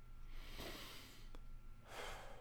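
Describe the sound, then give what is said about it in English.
Faint deep breathing during a relaxation exercise, drawn in through the nose and let out through the mouth: two soft, airy breath sounds rising and fading against quiet background hiss. “Breathe in through your nose, out through your mouth.”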